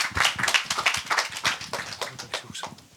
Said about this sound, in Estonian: nii et aplaus siis ka Kerlile.